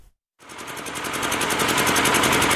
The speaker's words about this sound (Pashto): دا د صبرای ولسوالۍ اړوند یعقوبیو بازار کې د برېښنا یو پخوانی جنراتور دی چې د لوړ غږ، تیلو لوړ مصرف او تریخ لوګي په پرتله د برېښنا تولید په نشت حساب دی.